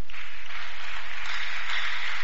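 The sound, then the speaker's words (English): Congregation clapping in church, a soft even wash of many hands that stays at the same level throughout, with no single claps standing out. “It's not me you are clapping for. You are clapping for Jesus.”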